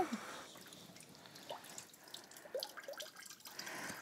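Water drips and trickles faintly from a soaked block of floral foam as it is lifted out to drain, a few small, soft drops over a quiet wet background.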